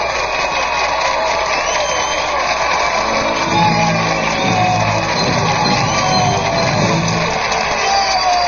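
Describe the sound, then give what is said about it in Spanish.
A theatre audience gives a frantic ovation: a dense, loud crowd roar with shouts and whoops that runs steadily through the whole clip without a break. “La sala entera respira cada vez más rápido y finalmente le otorga una ovación tan frenética como desaforada.”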